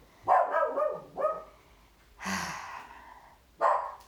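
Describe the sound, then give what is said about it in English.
Dogs bark at home in a few short, separate bursts, irregularly spaced and fairly faint, with quiet stretches between them. “You can hear my dogs barking.”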